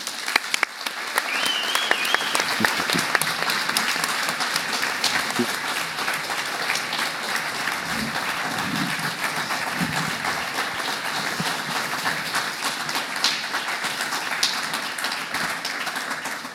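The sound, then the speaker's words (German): A conference audience at a paediatric anaesthesia meeting gives a long round of steady applause to welcome a speaker. The dense clapping stays even and sustained for well over fifteen seconds without fading. “Okay, der Länge des Applauses entnehme ich, dass du hier auch bekannt bist.”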